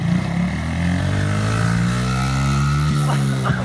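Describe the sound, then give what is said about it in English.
A dirt bike engine riding through sand, droning loud and steady throughout, with a couple of quick revs near the end. “all of you laugh when my child wrecks on a dirt bike”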